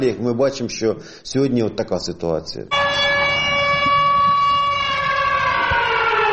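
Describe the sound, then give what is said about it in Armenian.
An air raid siren wails over the railway station at Mezheva, a loud, sustained, steady-pitched tone that begins abruptly after a stretch of speech and continues to the end. “Մեժևայի երկաթուղային կայարանի վրա հերթական անգամ հնչում է օթային տագնապի ազդանշանը։”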